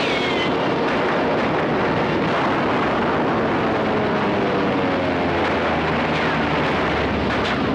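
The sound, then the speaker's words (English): War-movie battle soundtrack of gunfire from Sands of Iwo Jima forms a dense, continuous roar that stays loud and unbroken for the whole span, with no voices. “Who's shooting? No one is. That's a recorded soundtrack from a movie studio right out of the sands of Iwo Jima.”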